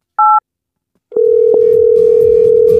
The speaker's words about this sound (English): We're calling the winner right now.